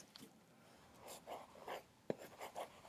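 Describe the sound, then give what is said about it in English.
Scratchy drawing strokes as someone sketches a dinosaur picture directly on a table: several soft, brief scrapes in an uneven rhythm, with one sharp tap midway, all quiet and without talk. “I'll play it cool and draw a picture of a dinosaur”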